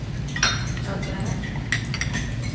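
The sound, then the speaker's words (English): A bar spoon stirs a mojito in a tall glass, making a few light metallic clinks and scrapes over a steady low background. “now you're just going to stir that up a little bit with your bar spoon, just to incorporate it”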